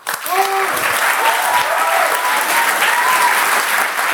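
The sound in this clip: Steady, loud applause from a comedy show audience, a dense continuous wash of clapping that holds at an even level for the whole stretch without pausing.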